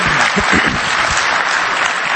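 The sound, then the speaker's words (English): Audience applause fills the whole stretch: dense, steady clapping from many hands, loud and even from start to finish with no voices rising above it. “go ahead, it's worth clapping for.”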